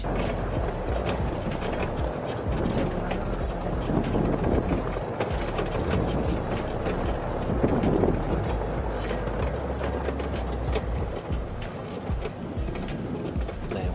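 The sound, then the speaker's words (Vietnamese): An electric shuttle car arriving on a Phú Quốc trip gives a loud, steady rumbling drone that stays constant for the whole stretch with no clear rise or fall. “Xe điện đến rồi”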